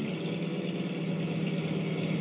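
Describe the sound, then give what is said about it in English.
A truck engine braking after a downshift, in a vehicle due for a new clutch, transmission and brake job, gives a steady, loud, rough low drone that holds even throughout. “Better shift it down again. Let the motor help brake it.”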